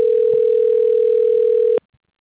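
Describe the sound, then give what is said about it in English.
Steady telephone tone as a call is dialed through from an automated dental-office phone line: one loud, continuous single-pitched tone lasting under two seconds, then cutting to silence. “Dialing.”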